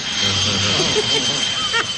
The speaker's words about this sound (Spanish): Sí, conseguimos una avioneta.